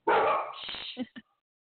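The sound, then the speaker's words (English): Large lab setter dogs barking in a house: a loud, rough burst of barking followed by a couple of short, sharp barks, then silence. “You have some big dogs in there. What kind of dogs do you have? They're lab setters, and they got attitude”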